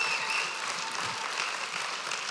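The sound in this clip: A church audience applauds to welcome a returning guest speaker to the service, a continuous, even wash of clapping at moderate loudness with no talk over it.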